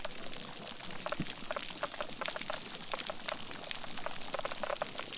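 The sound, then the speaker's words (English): Fish spawning chorus captured by an underwater microphone: a dense, continuous crackle of pops and clicks, with many sharp bursts standing out over a steady hiss. “when the time of the year and the phase of the moon signal that it's time to start mating, these fish choruses get even more pronounced.”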